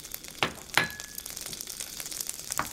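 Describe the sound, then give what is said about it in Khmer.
Eggplant frying in a pan gives a faint, steady sizzle broken by a few sharp crackles and pops. “ដាក់ត្រប់ពុតលំញងនេះលីងនៅក្នុងខ្ទះឲ្យវាឆ្អិន”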